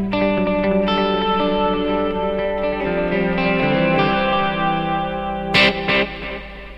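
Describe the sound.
Clean electric guitar tone with reverb and delay effects, sustained notes and chords ringing and overlapping with echoing tails, played alone, with two brighter, louder strikes near the end.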